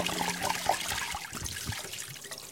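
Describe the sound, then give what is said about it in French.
Water gushes from an upturned bottle that is being spun on itself so the liquid swirls into a vortex, giving a steady rushing, gurgling pour that lasts the whole short stretch without letup. “Je remets ma bouteille droite, sauf que cette fois, je la fais tourner sur elle-même en même temps.”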